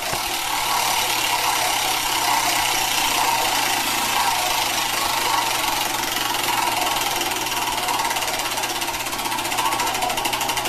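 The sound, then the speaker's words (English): Prize wheel being spun: a rapid, even clatter of clicks runs loud and unbroken the whole way through, with no voices over it. “do you want to spin the wheel? Tom, spin the wheel. Go ahead.”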